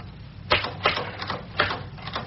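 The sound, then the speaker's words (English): Typewriter typing: uneven bursts of clacking keystrokes with a few louder strikes, heard alone without talk. “Perhaps your typing gets into my head.”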